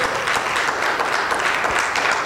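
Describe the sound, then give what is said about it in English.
A church audience claps hands in praise during a service, producing a dense, continuous and fairly loud patter of many hands with no break. “Give him a hand clap of praise. Come on, somebody.”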